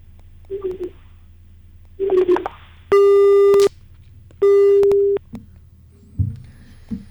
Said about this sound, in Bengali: না, ফোনটা কেটে গেল, ফোনটা ডিসকানেক্ট হয়ে গেল